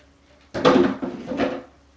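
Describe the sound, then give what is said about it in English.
Developer liquid sloshes inside a film developing tank as it is agitated and turned, in two swishing surges with a hollow, knocking edge after a brief quiet start. “and even inverting the tank entirely and just moving everything around, keeping everything in fairly constant motion. So the developer is in now.”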